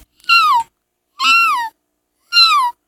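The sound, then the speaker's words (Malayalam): A kitten meows three times, each call a clear, high-pitched mew that slides downward at the end, separated by short silences. “പൂച്ചക്കുട്ടി.”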